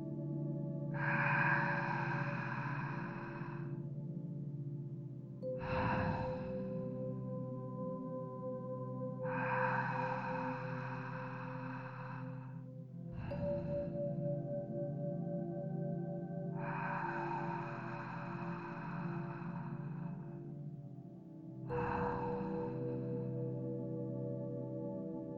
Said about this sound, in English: It can be relaxing to make your inhale about 4 very quiet counts and your exhale also 4 counts.